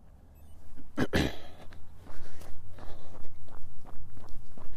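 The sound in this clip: Footsteps of a person running outdoors up a hill, many steady, evenly spaced thuds in a brisk rhythm, growing louder after a sharp burst of noise early on.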